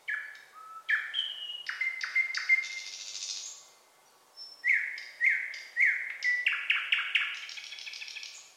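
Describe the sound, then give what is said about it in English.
Birds sing outdoors at dawn: many bright chirps and rapid trills in varied, overlapping phrases. The song breaks off briefly midway, then resumes with repeated short high notes and busy twittering. “I can hear the birds singing right outside. All the birds were waking up when I was out on the trail today.”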